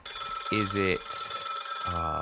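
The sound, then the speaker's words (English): A telephone rings in two short buzzing bursts, with a third burst starting near the end. The ring is loud and steady, with a bright high tone running through it. “So the phone rings.”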